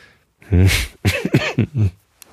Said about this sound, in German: Sorry, ich habe ein bisschen Husten. Ich versuche mich zusammenzureißen, dass ich hier nicht so ins Mikrofon huste.